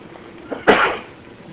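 A single sneeze during a religious lecture: a faint intake, then one sharp, breathy burst that fades over about half a second, with no talking.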